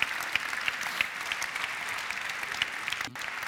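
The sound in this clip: Audience applause welcoming a guest speaker from an engineering department: steady, dense clapping from a crowd that holds throughout and dips briefly near the end.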